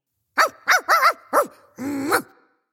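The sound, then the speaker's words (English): A dog barks at the mailman: four short, sharp barks in quick succession, then one longer, drawn-out bark. No one talks over it. “Sorry, that's my dog Melvin barking at the mailman.”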